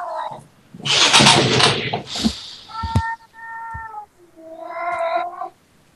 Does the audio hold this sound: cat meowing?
yes

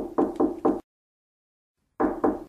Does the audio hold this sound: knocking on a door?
yes

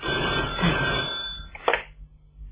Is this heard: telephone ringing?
yes

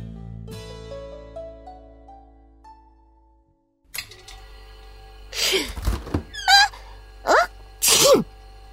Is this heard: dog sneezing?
yes

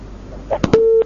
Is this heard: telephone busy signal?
yes

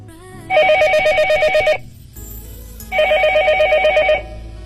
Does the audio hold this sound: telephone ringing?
yes

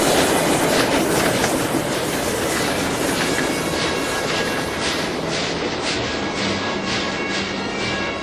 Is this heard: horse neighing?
no

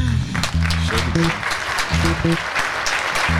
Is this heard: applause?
yes

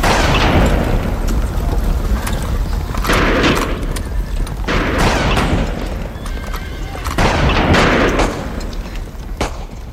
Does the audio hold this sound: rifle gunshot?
yes

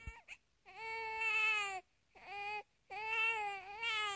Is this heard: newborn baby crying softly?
yes

